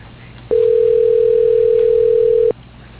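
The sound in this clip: A telephone ringback tone sounds while a call is placed to reach someone's voicemail: one steady, unbroken mid-pitched tone lasting about two seconds, starting and stopping abruptly over faint line hiss, with no talk.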